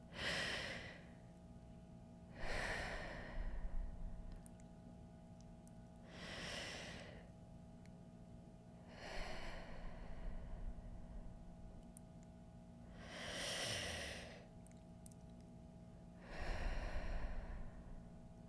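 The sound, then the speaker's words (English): Three slow, deep breaths, each an audible breathy inhale followed by a longer exhale, with quiet pauses between them and an even rhythm throughout. “put your hand on your heart, and let's take 3 deep breaths”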